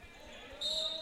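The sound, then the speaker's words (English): Basketball dribbled up the court in a high school boys' game: several quick, low, steady bounces under constant crowd hiss, with a thin, high squeak near the end. “a double dribble is going to be called against Simmons, who was bringing the ball up the court”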